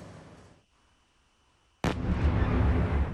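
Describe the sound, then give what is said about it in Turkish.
A sudden loud explosion during a night missile and drone attack on Kyiv breaks a quiet stretch, followed by a sustained, heavy rumbling roar. “Birbiri ardına gelen patlama sesleri ve yükselen alevler.”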